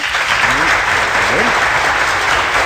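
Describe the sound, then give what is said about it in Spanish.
Applause at the close of a radio show: continuous dense clapping fills the whole stretch while voices talk over it. “Aplausos antes de irnos porque llegaron.”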